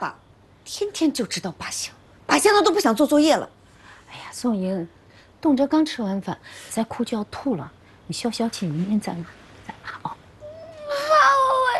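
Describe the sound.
A child crying after just finishing a meal, in bursts of wavering, high-pitched sobs and wails separated by short pauses.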